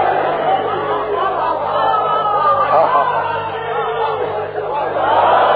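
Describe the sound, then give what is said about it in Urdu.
Crowd noise from a large religious gathering, a majlis: many voices murmuring, calling out and shouting together in a continuous, loud wash that swells slightly toward the end. “نہیں بھائی, بہت بڑا مجمع ہے, میں نے ابھی آپ سے نعرے لگوائے نہیں.”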